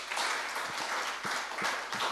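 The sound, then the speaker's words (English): Audience applause at a church service as a first-time visitor is welcomed: continuous, fairly quiet clapping from many hands, with a few louder claps standing out at irregular moments. “Please stand up, and we give you a very big hand clap.”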